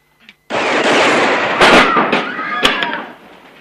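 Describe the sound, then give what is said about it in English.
Gunshots blast a painted sign to pieces: a few sharp reports crack within a loud, dense, crashing noise that lasts several seconds before fading. “He eyes the painted sign, Ransom Stoddard, Attorney at Law, and shoots it to pieces.”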